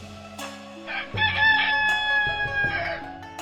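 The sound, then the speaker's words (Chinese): A rooster crows once in a long, harmonic cock-a-doodle-doo, set in a chicken coop at night. The strained call carries clearly above a quiet background. “麻姑非常同情老百姓，于是，一到晚间，他就躲在鸡窝学鸡叫。”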